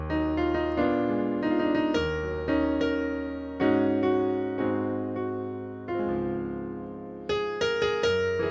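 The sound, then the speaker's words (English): A suspended chord resolves to an A-flat dominant chord, both voiced in root position. The chords ring out as a series of sustained, harmonically rich strikes at an unhurried pace, with no talking. “So this is root position sus to my root position dominant, right? So it'd sound like this.”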